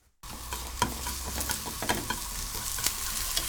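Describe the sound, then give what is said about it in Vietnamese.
Thinly sliced mushrooms and chopped onion fry in vegetable oil in a pan, a steady sizzle broken by many sharp clicks and scrapes of stirring. “Đun nóng 2 thìa cà phê dầu thực vật trên chảo, phi thơm lượng hành đã thái, sau đó đổ nấm đã thái mỏng vào.”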